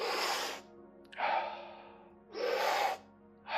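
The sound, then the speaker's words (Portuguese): Slow breathing in and out with no pause between inhaling and exhaling, as in a guided breathing exercise: three loud, airy breaths rise and fade over a steady low drone. “Inspira, expira. Sem intervalo entre a inspiração e a expiração. Inspira, expira.”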